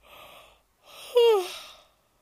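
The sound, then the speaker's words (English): A person yawns while recording in bed on a phone: a soft breathy intake, a brief pause, then a drawn-out voiced exhale whose tone slides downward before fading. Faint and alone. “don't mind my yawns.”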